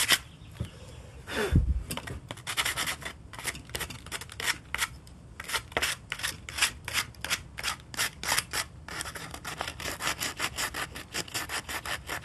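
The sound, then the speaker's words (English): Sandpaper rubbed over wood in many rhythmic back-and-forth strokes, a quiet, dry rasping that keeps a fairly even pace throughout. “See? Hear me sand down some wood.”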